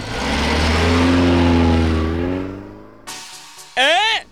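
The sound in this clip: A taxi car drives off, its engine revving loudly and rising in pitch before fading away, followed by a few faint knocks and a short voice.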